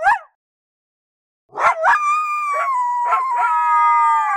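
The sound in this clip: Dog howling: a short high call, a pause, then a few yipping onsets that swell into a long, loud, sustained tonal howl, its pitch sliding gently downward.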